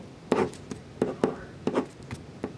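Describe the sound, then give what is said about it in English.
A pen scratches across paper while drawing a stick figure, a quiet series of several short, quick strokes in an uneven rhythm with brief pauses between them. “Everyone can draw a stick figure, right?”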